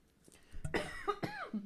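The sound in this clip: A coughing fit: a few harsh, voiced coughs in quick succession, loud and ragged, with no talking over them.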